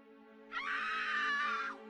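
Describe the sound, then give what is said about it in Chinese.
In a horror story, a woman in a car lets out a single high, sustained scream of fright on seeing a ghost outside. The scream lasts a little over a second and is fairly faint. “李云顿时一声大叫，将那四十岁左右的男人吓了一跳”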